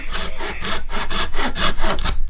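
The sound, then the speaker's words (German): A saw cuts the tip off a small rectangular piece of wood with many quick, steady back-and-forth strokes, each a rasping, bright scrape in a brisk even rhythm and with no talk. “es ist einfach so ein kleines Stückchen Holz, ein rechteckiges, und da sägen wir jetzt vorne die Spitze zu.”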